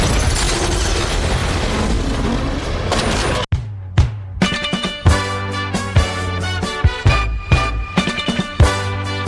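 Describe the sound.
Weapon fire and explosion sound effect. A dense, loud burst of noise lasts about three seconds and cuts off abruptly. Then comes a string of booming hits with ringing tones between them.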